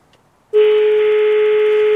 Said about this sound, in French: Deuxième sonnerie.